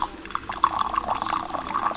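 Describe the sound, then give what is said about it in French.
Water trickles and splashes as it is poured from a small teapot into a pitcher during a gongfu tea session. The pour is steady and unbroken for about two seconds, with a bright, bubbling ring. “là je verse l'eau de la petite théière dans la verseuse, puis je viens préchauffer les petites tasses”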